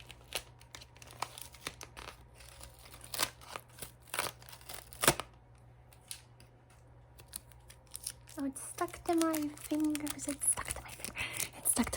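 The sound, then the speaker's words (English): Tape peeled off the side of a wrapped present, giving many sharp crackles, rips and crinkling paper rustles in uneven bursts; a soft voice joins near the end. “Let's take the tape off of the other side.”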